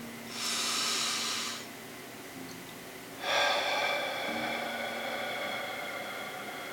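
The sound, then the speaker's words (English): Two deep breaths taken during a guided energy-work exercise, each a long airy hiss lasting about a second, separated by a short pause, with a faint low hum underneath. “And we'll just start out with taking a deep breath. And another one.”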